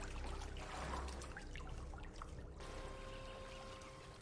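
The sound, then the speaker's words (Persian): Water trickles and drips as a character climbs out of a bathtub in a video game, a faint, steady run of soft splashing. “گرالت از وان بیرون میاد.”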